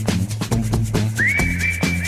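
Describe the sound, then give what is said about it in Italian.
Whistled melody in a pop song, played over a steady beat with drums and bass. Partway through, a clear whistled tone comes in. It slides upward and then holds a sustained high note while the rhythm carries on underneath. “Bello, perché c'è questo fischiettino. Senti.”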